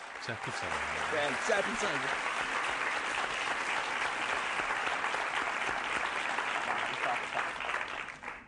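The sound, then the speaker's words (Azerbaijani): Audience applause, a thick and even roar of many clapping hands. A voice is heard briefly near the start, and the clapping holds steady before it tails off at the very end. “Alqışlayın məni.”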